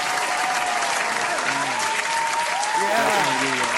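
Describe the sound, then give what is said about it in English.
Applause sound effect: a dense, steady crowd clapping that holds at an even level throughout, with some faint tonal voices mixed underneath. “put in, like, the claps.”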